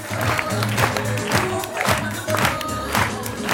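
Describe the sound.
A theatre audience gives a rapturous standing ovation at a play's curtain call: a dense, continuous wash of clapping and cheering with music playing underneath.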